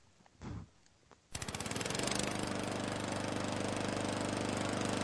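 A lawn mower engine catches after a brief earlier burst of noise, then runs continuously with a rapid, pulsing mechanical drone that holds steady and fairly loud to the end.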